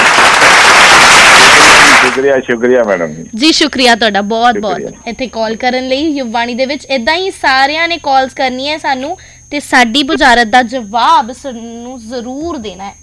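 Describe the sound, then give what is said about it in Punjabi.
A studio audience bursts into loud applause for the winner of a riddle game, and the clapping stops after about two seconds as people start talking. “ਜਿੱਤ ਕੇ ਪਹਿਲਾਂ ਤਾੜੀਆਂ ਮਾਰ ਦਿਓ ਜਰਾ।”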